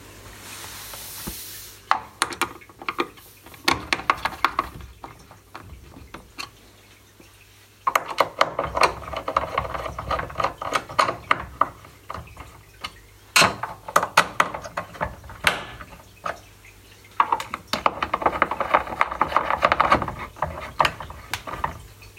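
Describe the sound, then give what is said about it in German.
Screws being tightened into a casing make repeated scraping, rubbing and ratcheting clicks in several bursts, with short quieter pauses between them. “Ja, ich schraube den Rest mal fest.”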